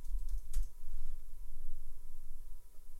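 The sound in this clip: Typing a search into a computer keyboard, a quick run of soft clicking keystrokes at a steady pace.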